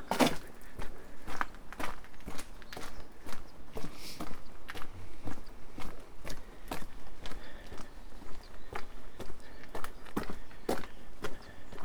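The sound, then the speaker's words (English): Footsteps of someone walking behind a shabby hotel, many even, regular steps at a steady pace, moderately loud with a faint background hiss. “And I'm walking behind the shabby looking Imperial Hotel.”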